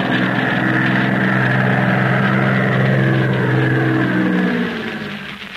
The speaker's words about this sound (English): Maybe that is the spider's plane searching for Jack Armstrong and his companions.